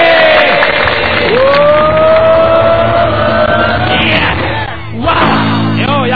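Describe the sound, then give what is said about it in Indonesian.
A seminar audience cheers and shouts in a loud, sustained roar of many voices that dips briefly near the end and then surges again. “Kasih tepuk tangan dulu, kasih suara.”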